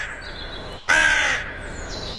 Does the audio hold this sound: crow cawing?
yes